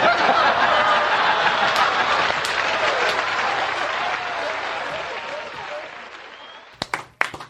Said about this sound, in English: We're applauding.